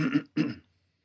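A man clears his throat while playing a video game: two harsh, rasping bursts in quick succession, the second slightly longer, followed by silence.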